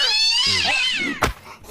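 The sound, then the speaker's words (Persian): A cat meows in a drawn-out, high, wavering call whose pitch bends up and down, followed by a brief sharp click. “آخ چه پیشی ملوسی، شریک میشه پیش خودمون نگهش داریم؟”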